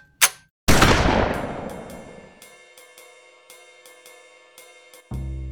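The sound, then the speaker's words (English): A shotgun fires: a short sharp crack, then a loud blast that rings out and slowly decays over about two seconds, followed by a few faint metallic clinks and no voices. “the goateed bastard pointed his shotgun at me and pulled the trigger”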